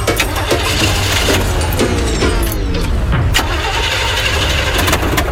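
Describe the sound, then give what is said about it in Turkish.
A car engine cranks but fails to start, giving a loud, continuous grinding churn that runs for about five seconds without the engine catching. “Baba, araba çalışmıyor mu?”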